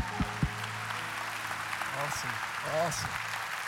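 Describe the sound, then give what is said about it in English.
Church audience applause welcoming a pastor, a steady wash of clapping that runs through the whole moment, with a couple of sharper early claps and voices rising over it near the end. “So I want you to put your hands together, Celebration, and give the best welcome you can to Pastor Steve Robinson.”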